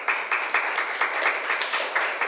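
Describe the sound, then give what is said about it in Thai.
A classroom group applauds a student with brisk, steady clapping that pulses in a fairly regular rhythm. The clapping is moderately quiet and continues without voices. “ปรบมือให้เพื่อนหน่อย”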